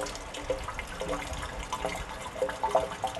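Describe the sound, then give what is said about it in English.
Distillate trickles from the condenser hose of a running alcohol still: a faint, steady watery trickle with small splashes. “And you can hear how the still is quieted down quite a bit since just in the few minutes you've been here.”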